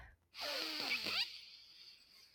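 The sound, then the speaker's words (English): A deep inhale through the nose during a guided breathing exercise: a loud, breathy rush of air lasting about a second, which then fades into quiet hiss. “I want you to take a deep inhale through your nose.”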